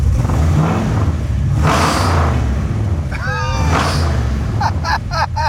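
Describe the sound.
A motor engine revving as the driver gives it gas: a steady low rumble that swells with throttle. Other brief chirping sounds sit on top of it.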